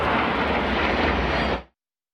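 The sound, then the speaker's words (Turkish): Roar of Turkish Stars aerobatic jets displaying over Konya, a loud, broad, steady rush of engine noise that cuts off sharply near the end. “Türk Yıldızları'nın Konya semalarında nefes kesen gösterisi yaklaşık yarım saat sürdü. Uçakların duman atarak tırmanış, dönüş ve alçalma hareketlerini yapması izleyenleri hayran bıraktı.”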